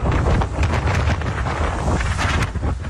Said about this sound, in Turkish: Yer yer yağmur ve kuvvetli rüzgar etkili oldu.